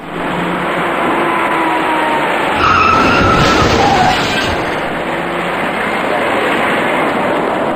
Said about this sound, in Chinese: 驾驶这辆深色小客的司机完全没有注意到前方的车辆已经减慢车速，在毫无措施的情况下，深色小客严重追撞到了前车